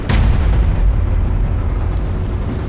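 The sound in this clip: Loud, heavy gunfire in a wartime drama scene, a dense booming rumble that starts with a sharp burst and keeps roaring throughout with no voices.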